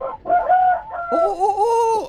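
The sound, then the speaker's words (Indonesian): A neighbour's chicken clucks in a few loud, drawn-out calls with strong tonal pitch. The calls follow one another with no talk. “Itu ayam siapa itu?”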